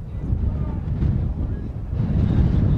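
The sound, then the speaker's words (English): Wind picking up at a baseball game: a steady, low, rumbling roar of gusts buffeting the microphone, rising slightly toward the end. “Wind's starting to kick up.”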